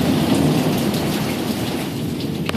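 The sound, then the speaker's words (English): Heavy rain pours steadily during a thunderstorm, with a continuous low rumble of thunder underneath. The hiss of rain stays even and loud throughout, with no sharp, distinct clap standing out. “Here's a sound of a good thunderclap.”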